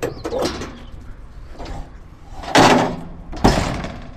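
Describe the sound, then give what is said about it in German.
A waste container's lid is shut: a couple of loud, heavy thuds ring out after softer knocks and rustling, with no talk. “Okay, wir können uns ja mal wieder hier von dem Container entfernen, ja, noch schön zumachen.”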